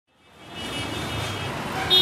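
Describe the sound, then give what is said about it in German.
Steady roar of heavy traffic on a busy main road in northern Delhi, rising from near silence within the first half second into a dense, continuous wash of engine and tyre noise. “Im Norden von Delhi eine stark befahrene Straße, der übliche Verkehrslärm der indischen Hauptstadt.”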